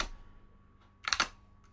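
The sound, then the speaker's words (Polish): Computer keys click as the Ctrl-Shift-D shortcut is pressed, a faint tap followed by a brief, tight cluster of louder clicks. “Przejdę sobie do jakiejś innej aplikacji, naciskam sobie Ctrl-Shift-D.”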